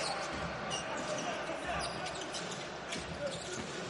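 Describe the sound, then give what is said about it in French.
Basketball dribbling in a match, a behind-the-back move, with a few faint bounces buried under steady, dense crowd noise throughout. “Le dribble dans le dos, est-ce que c'était nécessaire?”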